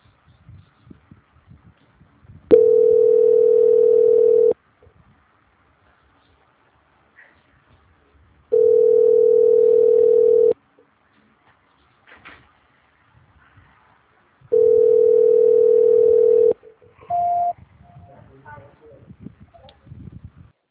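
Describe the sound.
Telephone line tones while a call is being transferred: three long, steady mid-pitched tones of about two seconds each, separated by pauses, then a shorter, higher beep, with faint murmurs in the gaps.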